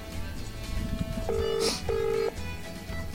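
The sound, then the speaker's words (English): Telephone ringback tone on a call placed at midnight. Two long, steady ring bursts sound over a low background hum, separated by a brief pause. “we should ring him up here at midnight right now just to see what he's doing. Let me just see who he's on here. Dialing away. Here he goes.”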